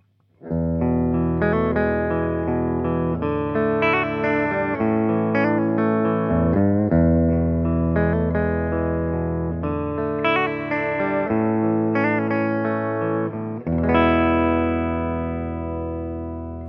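Clean, undistorted instrument tone played through an effects pedal: sustained, ringing chords with rich harmonics, changing a few times at a steady, fairly loud level, with one brief dip partway through.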